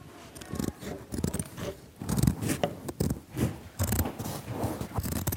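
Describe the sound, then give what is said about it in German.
Scissors cutting the sleeves off a garment. Many crisp, crunchy snips and scraping strokes follow in a busy, uneven rhythm, with no talk. “Ich fange mal an und schneide den rechten Ärmel. Und ich schneide den linken.”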